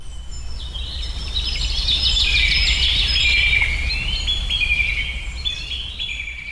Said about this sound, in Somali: iyadoona shimbiro kala nooca maqalkooda kugu soo dhacaya kuwaasoo ku tusaya barwaaqada halkan ka jirta